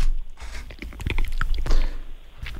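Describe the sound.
A mouth bites into chocolate and chews it, with soft wet crunches and smacking that come in uneven bursts and swell toward the middle.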